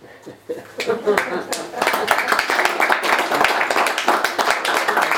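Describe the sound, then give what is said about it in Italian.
Audience applause grows from a few scattered claps into dense, continuous clapping that stays loud to the end, with voices mixed in. “Un applauso ovviamente sempre a Maria Pia, ma anche a Ferruccio per questa sua ribellione”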